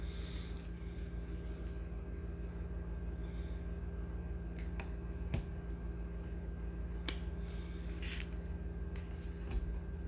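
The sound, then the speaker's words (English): Tarot cards being laid down on a table make a few scattered, crisp snaps and taps over a steady low hum. “But let me see, I'm going to lay down a few more cards here.”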